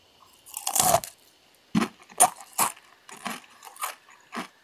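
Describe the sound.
Crunching of spicy chips with a Doritos-like flavor, recorded close to the microphone: a long opening crunch, then a series of sharp, uneven bites and chews with brief quiet gaps between them.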